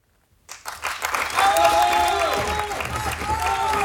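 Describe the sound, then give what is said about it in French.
Theatre audience clamour and applause swell from silence into dense, sustained clapping with cheering voices, staying loud to the end. “Cette clameur. Victor, c'est gagné.”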